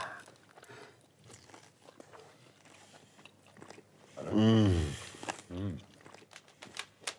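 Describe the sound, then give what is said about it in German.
Faint chewing and biting of a spicy, creamy dish, soft mouth sounds under conversation, with one drawn-out vocal exclamation partway through. “So, ich glaube, das ist jetzt was recht Pikantes. Dann essen wir es einfach mal.”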